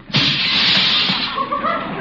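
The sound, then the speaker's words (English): A staged sound effect of a car coming around a corner: a loud, sustained rush of engine and tyre noise that starts abruptly and holds steady for about two seconds. “Hey, wait a minute. Here comes the car around the corner.”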